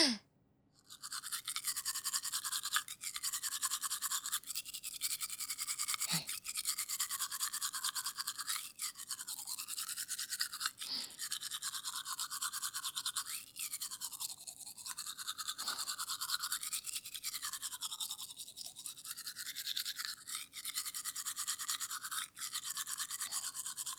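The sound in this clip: Teeth being brushed with a toothbrush: a long run of many rhythmic, scratchy bristle strokes, steady and fairly faint, with short pauses between bursts and no talking.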